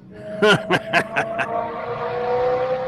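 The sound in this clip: A car engine revs hard in a quick run of sharp throttle blips, then settles into a steady, droning hum.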